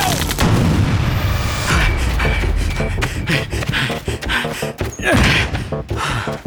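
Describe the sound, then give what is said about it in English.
A grenade explodes in a war video game amid a loud, continuous battle soundscape of booming blasts and dense gunfire, with tanks in the fight and no pause in the noise. “Grenade, grenade!”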